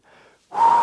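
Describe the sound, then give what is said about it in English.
A deep cleansing breath: a faint, short draw of air, then a louder, rushing breath that fills the rest of the moment. “Deep cleansing breath.”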